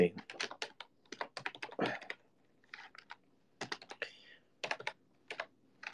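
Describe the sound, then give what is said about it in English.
Typing on a full-size Logitech G1213 membrane keyboard produces bursts of soft, rapid key clicks separated by short pauses, uneven in rhythm and moderately quiet. “I'm pretty sure it's like a membrane keyboard, honestly, but it feels nice. But I'm pretty sure it's a membrane.”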